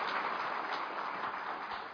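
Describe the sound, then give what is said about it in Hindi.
Audience applause welcomes a guest at a gathering, a steady, muffled wash of clapping that holds evenly for two seconds. “आप एक बार जोरदार ताली बजा के इनका स्वागत करिए।”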